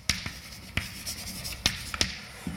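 Writing on a board makes faint, scratchy strokes punctuated by several sharp taps at an irregular rhythm, with no talking.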